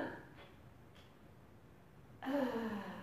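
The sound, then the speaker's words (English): A voice imitates the rasping death breathing of a dying woman on her deathbed. Faint breathy sounds lead into a louder, drawn-out rattling breath at the end. “she was having that death breathing where you go,”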